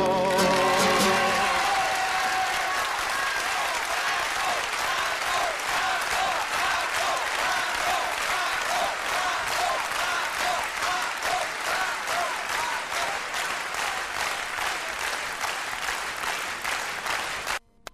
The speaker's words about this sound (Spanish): Aplausos en el Olimpia.